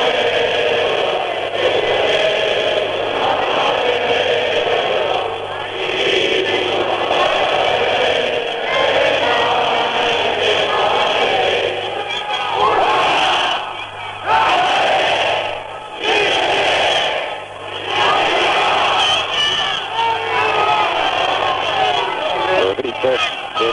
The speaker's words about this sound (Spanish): El público más en alto canta el cara al sol.